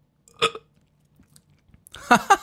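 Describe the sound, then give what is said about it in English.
Two short, rough throaty bursts of burping from people watching an Xbox fighting game, the first brief and sharp, the second louder and slightly longer near the end, with quiet gaps between them. “I just burped, Slim. Me too.”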